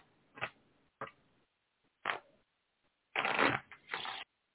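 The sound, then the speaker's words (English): Playing cards being dealt in a game, heard as a few quiet, short papery slaps and rustles spaced apart, then a longer cluster of riffling card noise near the end. “Cards are going down again.”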